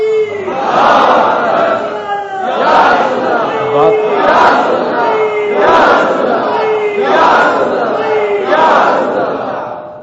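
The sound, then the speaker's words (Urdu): A crowd chants religious slogans in unison, producing loud, rhythmic bursts of shouting that repeat at a steady pace throughout. “یہ نعرے ہی ہے.”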